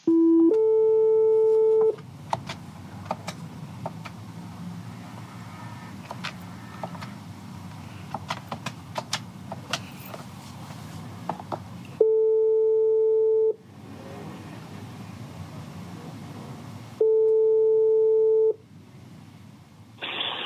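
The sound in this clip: An outgoing call's ringback tone plays on a French telephone line as a publisher phones an author. It gives three long, steady, mid-pitched tones separated by pauses, with faint line hiss and scattered clicks in between.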